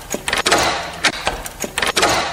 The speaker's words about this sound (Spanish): Ayúdame, esta cerradura se romperá fácilmente.